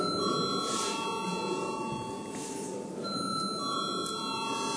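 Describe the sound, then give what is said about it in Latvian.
An electric bell rings in a parliamentary chamber to call members to a vote, a steady, fairly faint high ringing that holds through the whole stretch. “Lūdzu, zvanu.”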